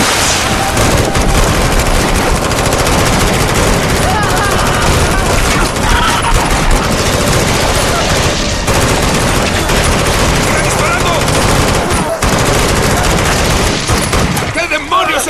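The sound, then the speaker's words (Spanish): Heavy gunfire in a combat scene, repeated shooting that keeps up as dense, overlapping bursts and blasts. It stays loud and unbroken from start to finish. “¡Maldita cosa! ¡Sigue viva! ¡Ya le disparé 100 veces! ¡No muere!”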